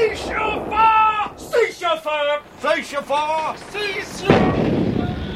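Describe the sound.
A pirate cannonball striking a cage square, heard as a single loud, broad crash that follows animated, theatrical voices talking.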